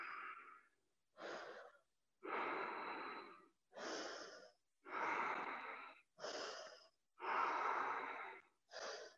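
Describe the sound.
Deep breathing in and out during a yoga stretch in Adho Mukha Virasana, arms extended: eight airy, slightly wheezy breaths separated by short silent pauses, with no talk.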